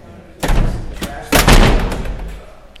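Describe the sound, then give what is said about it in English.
A heavy statehouse door slams shut, with several loud, booming bangs whose rumbling decay lingers between and after the hits. “That's the sound of a statehouse door slamming shut yesterday”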